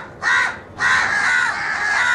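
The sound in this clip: A crow cawing: one short, harsh caw, a brief pause, then a long, drawn-out raspy call that stays loud to the end.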